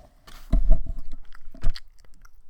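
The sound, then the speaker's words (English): Chewing a gumball close to the microphone gives a few loud, crunchy bites, followed by softer chewing that fades out. “Yeah, it's a gumball. You can hear it from here.”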